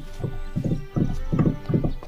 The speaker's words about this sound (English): hoofs as a galloping horse seems to be coming down the roadway leading to your cottage.